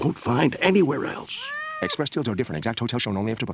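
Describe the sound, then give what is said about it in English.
A cat perched over a bed meows at night: one drawn-out meow whose pitch rises and then falls, heard amid steady talk from a person before and after it. “That's the sound of your in-laws' cat perched over your bed at 3 a.m.”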